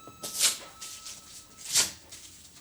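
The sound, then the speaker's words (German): Paper tearing as a small handwritten greeting card is ripped up: two short, crisp rips separated by a brief pause, alone and fairly quiet. “Ich habe sogar ein Kärtchen geschrieben. Für meine einzige Clara. Ich zerreiß es. Weg damit.”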